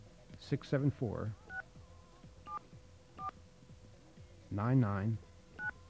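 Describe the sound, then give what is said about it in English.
Touch-tone dialing on a telephone line fitted with the New York area code: four short keypad beeps spaced apart, heard between bursts of a voice talking. “You have a dial tone? Okay. Let's see if our switch is set up to handle this. Number is”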